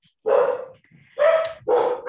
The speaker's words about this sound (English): I have to apologize for my dogs in the background. Is it walk time?